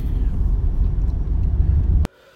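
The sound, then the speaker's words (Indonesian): A car driving on a toll road gives a steady low rumble of engine and road noise that holds evenly for about two seconds, then stops abruptly. “gue akan nyetir di tol dulu ntar sambung lagi”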